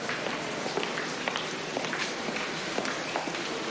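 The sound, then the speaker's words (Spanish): Footsteps walk along a cloister corridor in a university, many soft, steady steps that are only slightly clearer than a dense, hissy background that runs the whole time. “Cody camina unos pasos por detrás de Tanger.”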